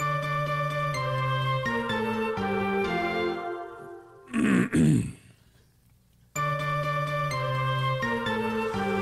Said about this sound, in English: That was an ad for a throat clearing magazine.